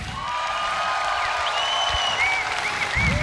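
Steady audience applause for a guitarist at a concert, a dense wash of clapping held at an even level throughout, with a few shrill whistles rising through it toward the end.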